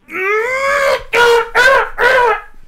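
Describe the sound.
A voice imitates a little sob: one long, wavering, whimpering cry followed by three shorter, choked sobbing bursts, loud and close.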